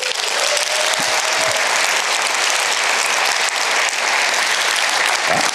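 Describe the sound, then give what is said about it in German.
Loud, dense audience applause during a talk, continuous clapping that fills the whole clip without a break. “während ich den Applaus sehr gut finde”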